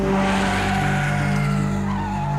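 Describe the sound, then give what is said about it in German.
Car tires squeal in a loud, sustained screech lasting a couple of seconds, holding steady with a low rumble underneath. “jetzt mal der Reifen.”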